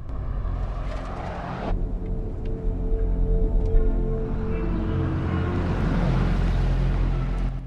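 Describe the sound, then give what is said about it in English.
Steady engine and tire rumble of a black SUV driving along a quiet road, a dense low drone that holds evenly throughout with no voices. “drives the black SUV along a quiet road”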